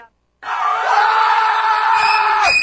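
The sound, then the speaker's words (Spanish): Loud cheering and screaming from a crowd greeting a participant, bursting in abruptly after a brief silence and holding as a sustained, high, steady roar for about two seconds before cutting off. “Bien, aplausos ahora sí, vamos. Aplausos a la compañera.”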